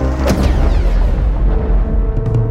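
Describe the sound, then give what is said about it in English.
An asteroid being detonated sounds as a loud, deep explosion that swells into a sustained, rolling rumble with a heavy low end throughout. “Asteroid SW-72 has been detonated. Everything else is a ricochet.”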